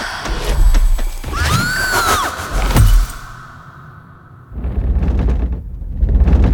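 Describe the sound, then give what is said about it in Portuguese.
Heavy rumbling and rattling of furniture and walls shaking during an earthquake, with creaking and a loud crash-like impact midway, then a quieter stretch before the rumbling surges back. “O que tá acontecendo? É um terremoto. Os móveis, olha. As paredes estão tremendo.”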